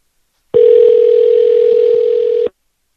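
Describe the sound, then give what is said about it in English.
One steady ringback tone on an outgoing telephone call, a loud, even buzz of about two seconds that starts and stops abruptly with silence on either side. “I'll try him one more time. It goes right to voicemail.”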